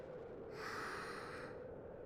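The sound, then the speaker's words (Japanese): A single slow, deep inhale during a relaxing stretch and breathing exercise, a soft steady airy rush lasting about a second, faint and alone. “じゃあ、最後に深呼吸。吸って、”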